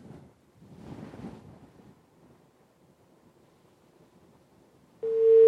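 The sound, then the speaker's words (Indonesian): A disconnected telephone call: faint line hiss and low rumble give way at the very end to a loud, steady busy-signal tone. “Baik, terputus.”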